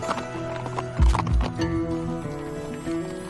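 Mule hooves clip-clop on a steep canyon trail during a guided descent. A few firm hoof clops are joined by a brief snorting whinny, over a quiet background.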